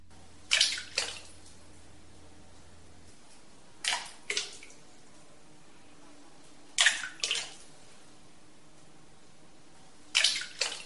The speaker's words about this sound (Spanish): vamos a escuchar una gota que va llenando poquito a poquito lo que llamamos un gurs, o sea, una especie de volcancito que se llena de agua